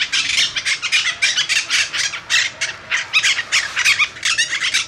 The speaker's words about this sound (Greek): Είναι η μυοψηταική. Αυτή η μυοψηταική. Είναι ένα από τα τρία είδη παπαγάλου που αναπαράγονται στην Αθήνα μέσα.